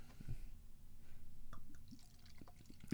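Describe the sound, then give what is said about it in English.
Salmon soda being poured into a container: a faint, steady liquid trickle with a few soft drips scattered through it, quiet throughout and with no voices. “that was a healthy pour”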